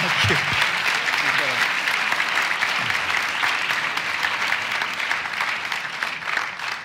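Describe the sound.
Sustained applause from an audience welcoming a guest speaker at a Socrates in the City event. Dense, even clapping continues at a steady, fairly loud level for about seven seconds, with no clear break or peak.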